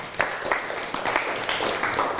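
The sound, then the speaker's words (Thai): Applause from a classroom audience clapping for a fellow student after a Thai music performance, a steady wash of dense hand claps with a few sharper individual claps standing out, moderately loud throughout. “ปรบมือให้กับเพื่อน”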